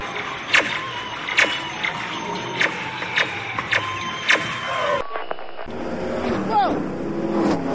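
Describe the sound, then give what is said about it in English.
Fast cars whoosh past in a series of sharp, repeated bursts over a steady traffic roar, then the sound cuts to a different background with voices. “Whoa! Wow, people sure drive fast around here.”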